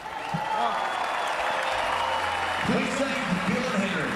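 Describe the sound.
A stadium crowd of Newcastle Knights rugby league fans cheers and applauds for the two teams in a steady, dense roar, with a voice sounding over it in the later part.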